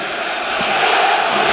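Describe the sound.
A football crowd boos and whistles at PAOK players during a Greek league match, a dense, steady roar that holds loud and unbroken throughout.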